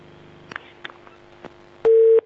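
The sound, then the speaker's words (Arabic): A telephone busy tone sounds after an incoming call from Italy disconnects. A few faint clicks on the line come first, then a single loud, steady beep that cuts off abruptly. “قطع الاتصال. طيب لعله يحاول اتصال مرة ثانية إن شاء الله.”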